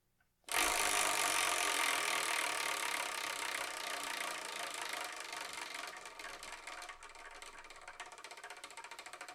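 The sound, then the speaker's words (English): Rapid clicking from a spun prize wheel starts abruptly and loudly, then continues as a dense rattle that gradually thins and fades toward the end. “Let's actually go and spin this wheel and see what we're going to review in the next episode, shall we?”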